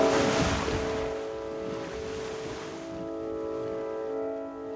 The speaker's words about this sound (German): Stattdessen dümpeln wir hier auf dieser Katastrophe von Schiff herum, ohne dass ich eine Idee vom Segeln hätte.